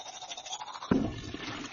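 A toothbrush scrubs teeth in quick, repeated scratchy strokes, soft and bristly. A slightly louder scrape stands out midway before the brushing carries on at an even pace.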